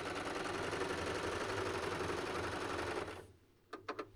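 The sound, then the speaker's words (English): A sewing machine stitches a cuff seam through four layers of fabric, running in a fast, steady whir that stops abruptly, followed by a few sharp clicks. “Sew that with your appropriate seam allowance. Serge it, whatever.”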